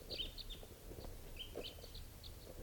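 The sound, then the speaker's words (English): A small flock of birds perched in a treetop gives faint, high-pitched chirps and short calls at irregular intervals over a constant background hiss. “Stop. They're recording. One of the type 3's is an adult male. And the birds are just sitting here on the top of a tree.”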